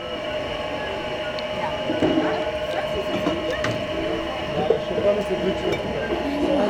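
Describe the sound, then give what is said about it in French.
A machine pressing apple juice out in the street during a shop's anniversary celebration, a steady mechanical rumble and whine with clattering, under people talking. “Pourquoi est-ce qu'aujourd'hui il y a cette machine dans la rue? Il y a cette machine parce qu'on fête les 3 ans des haut-parleurs et on fait notre jus de pomme pour l'année et aussi pour les gens, pour nos clients.”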